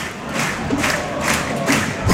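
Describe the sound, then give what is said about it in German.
Football fans clap in a stadium during a match, their loud, rhythmic bursts of clapping rising in a few regular pulses over a steady crowd roar. “Und Vaduz-Fans klatschen hier jetzt vor uns.”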